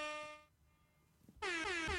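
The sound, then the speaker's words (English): Loud air horn blasts with a bright, brassy tone rich in overtones. One blast fades out, then after a short pause another starts and holds at full strength. No talk is heard. “All you have to do is push that button a few times on the air horn and you're set.”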